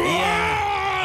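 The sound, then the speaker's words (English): A human voice imitates a guttural Bigfoot roar. It is a short, loud, rough groan held at a steady pitch that drops away at the end. “That is the noise I associate with Bigfoot.”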